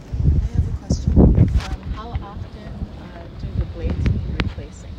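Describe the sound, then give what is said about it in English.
Wind blowing across a small wind farm, buffeting the microphone with a loud, low, gusty rumble that swells and eases in waves, with brief faint voices underneath. “It's a great, obviously, wind source, as you guys can see here. Wind is always blowing, it's always producing energy.”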